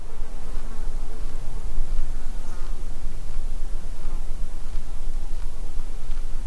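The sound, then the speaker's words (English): Insects buzzing near microphones on a quiet, windless mountain summit, forming a continuous, even drone of fine buzzing over a soft hiss with no single distinct flyby. “Things like insects will oblige and fly by your mics.”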